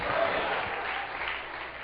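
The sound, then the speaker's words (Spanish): A church audience applauding with dense, steady clapping that holds at an even level throughout the short moment. “Dale un aplauso a Cristo, que se lo merece.”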